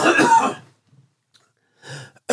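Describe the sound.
Coughing and throat clearing from a person with a piece of candy stuck in the throat: a long, harsh, rough burst, then a pause and a few shorter hacking catches, heard alone without talk.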